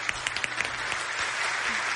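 Audience applause, a soft, steady patter of many clapping hands with a few sharper claps standing out early on, continuing at an even level throughout.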